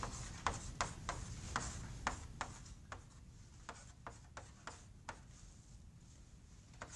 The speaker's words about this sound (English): I'm going to write this as a theta dot.